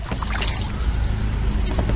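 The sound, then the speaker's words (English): A kayak moves across a lake: a steady, dense wash of water and hull noise with faint paddle splashes, loud and unbroken throughout. “We're on the lake with Thorhammer. We're on a kayak with Thorhammer.”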